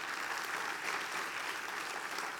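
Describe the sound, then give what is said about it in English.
Applause from a church audience during a Sunday service: dense, steady clapping from many hands that holds at an even level throughout, with no distinct individual claps standing out. “Church, put your hands together.”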